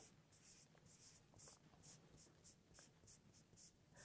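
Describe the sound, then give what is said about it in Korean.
A pen scratches across paper as an answer is written on a worksheet, making many quick, faint strokes in an uneven but steady rhythm. “그럼 여기다가 종이와 종이팩을 따로 버리지 않았다라고 써주면 되겠네요.”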